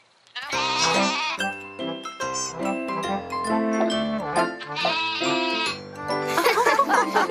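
A goat bleating in a few wavering, tremulous calls, with other sustained tonal sounds layered alongside.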